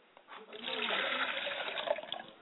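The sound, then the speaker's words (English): Water poured out as a libation, a soft, brief splashing stream lasting about two seconds, fairly faint and muffled. “I pour libations and set a glass of water for my father's spirit, and I say. I pour libations and I set a glass of water for my mother's spirit”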